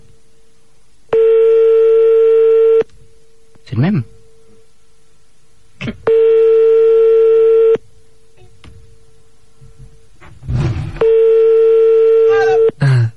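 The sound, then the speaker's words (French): A telephone is redialled after the other side hung up. Three long, steady electronic tones sound in the earpiece, separated by gaps in which a man speaks briefly. “Ah, il a raccroché. On rappelle. Oh, chef. On rappelle.”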